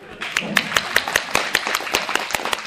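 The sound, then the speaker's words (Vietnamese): An audience claps hands in a quick, even rhythm of many sharp claps, with a voice audible under the clapping. “Chịu không? Chịu vỗ tay đi.”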